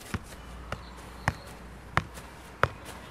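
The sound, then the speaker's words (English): A soccer ball is juggled by a 68-year-old man doing keepie uppies: five crisp taps in a steady, even rhythm, each a short sharp thump over a faint, quiet background. “He's still juggling soccer balls.”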